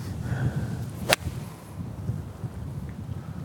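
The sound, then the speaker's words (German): A single sharp swish and crisp strike from an eight-iron golf swing on an uphill shot, swung softly. One brief, bright burst rises over a faint, quiet background. “Aber ich glaube, ich habe keine Lust, nochmal einen Schläger zu wechseln. Deshalb schlage ich einfach ein bisschen lockerer.”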